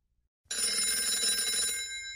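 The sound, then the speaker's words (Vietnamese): A morning alarm clock at seven o'clock breaks a brief silence with a sudden bright, continuous bell ring that holds steady and keeps going to the end. “Tiếng chuông báo thức vang lên khi kim đồng hồ vừa chỉ 7 giờ sáng.”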